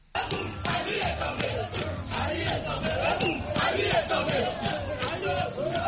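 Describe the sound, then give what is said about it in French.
A crowd in Libreville celebrates a coup with loud, massed shouting and cheering, many voices bellowing together at a steady, high level throughout. “À Libreville, le coup a été accueilli par une liesse populaire.”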